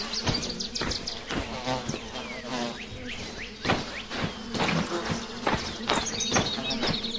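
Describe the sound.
Stinging bees buzzing around their hive: a dense, steady insect drone that holds throughout, broken by many brief louder whirs and clicks as individual bees pass close.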